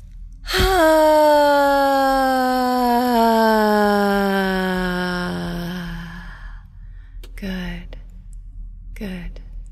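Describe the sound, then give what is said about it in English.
A long, deep voiced exhale at the end of a breathing exercise, a drawn-out sighing tone that sinks slowly in pitch and fades over several seconds. A few short vocal sounds follow. “And on this last breath, really let it go. Just let it completely go.”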